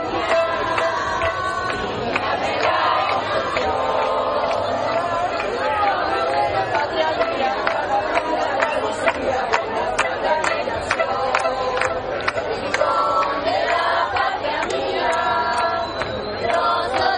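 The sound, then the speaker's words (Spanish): Many voices chorus their anthem together at the Gibraltar border crossing, forming a steady, sustained swell of group singing over constant crowd noise. “desde el lado de la línea se escuchaba a la gente corear su himno”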